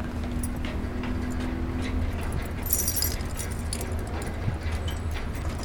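Keys jangle briefly while someone tries a key in a lock: a short metallic jingle near the middle over a constant, noisy low background rumble.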